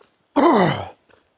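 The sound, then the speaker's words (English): Throat clearing after inhaling a bug: one rough, voiced burst of about half a second, then a faint brief follow-up sound. “Sorry, I inhaled a bug.”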